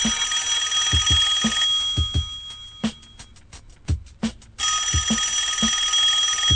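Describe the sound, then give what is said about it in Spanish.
A telephone ringing in an office: a shrill, continuous high electronic ring that breaks into a few rapid pulsed bursts in the middle before resuming, over a regular low thumping beat. “En la oficina suena el teléfono.”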